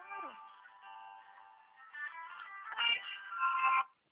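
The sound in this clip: Phone ringtone signalling a second incoming call, a bright electronic melody of steady harmonic tones that switches notes a few times and grows louder toward the end before cutting off.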